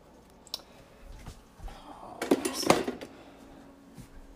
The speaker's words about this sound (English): we get 1 tablespoon of butter, and then we're gonna spread that on the pan.